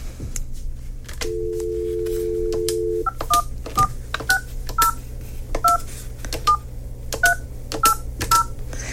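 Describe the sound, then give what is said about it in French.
A telephone number being dialed: a steady dial tone plays for about two seconds, then a quick, uneven run of many short touch-tone beeps follows over a low constant hum. “Alors, je vais téléphoner à Nathalie à l'instant.”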